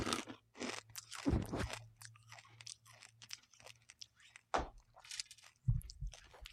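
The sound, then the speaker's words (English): Crunchy popcorn-flavoured Skittles candy being chewed: a run of dry, crackling crunches and bites, loudest early on and again near the end, over a faint low hum. “Yeah, they're literally just selling Skittles. All right, man. But think about what you think it's going to taste like and try it.”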